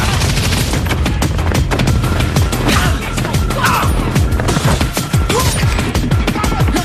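Rapid video game gunfire with bullets flying as the hero dodges them in a shooter set in post-Brexit England: dense, unbroken volleys of loud shots and impacts throughout.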